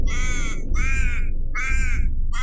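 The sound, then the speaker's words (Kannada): Harsh, loud cawing from a crow that has been struck on the wing by a thrown stone: four evenly spaced calls, the last cut short, over a steady low rumble. “ಆ ಕಲ್ಲು ಕಾಗೆಯ ರೆಕ್ಕೆಗೆ ಹೊಡೆದು ಕಾಗೆ ನೋವಿನಿಂದ ನರಳುತ್ತಾ ಮೆಲ್ಲಗೆ ನೆಲಕ್ಕೆ ಬಿತ್ತು”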